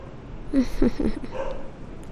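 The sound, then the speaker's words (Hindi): A dog barks in a few short, mid-pitched yaps close together, then a softer trailing sound follows. No one speaks. “वो भी एक कुत्ता है मेरा जो बाहर भौंक रहा है।”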